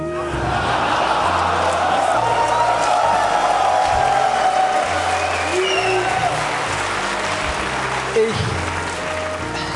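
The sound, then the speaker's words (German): An audience murmurs, a dense, loud wash of overlapping crowd noise and voices that holds steady throughout and eases slightly near the end. “Ein Raunen geht durch das Publikum.”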